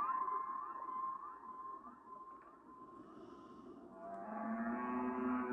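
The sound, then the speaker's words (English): Whale song: faint, drawn-out moaning tones with layered overtones hold steady, then a new, deeper sustained call rises in near the end. “as you listen to the whale song”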